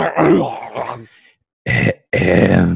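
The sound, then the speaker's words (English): A voice imitates someone clearing their throat: a long, gruff, rasping vocal burst, then two shorter groaning bursts after a brief silence. “And them clearing their throats.”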